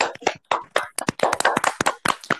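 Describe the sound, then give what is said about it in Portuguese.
Someone beats their chest with open hands, making many quick, loud slapping thumps in a fast, uneven rhythm with short gaps between bursts. “Bate o peito, Pepita! Tô batendo meu peito aqui.”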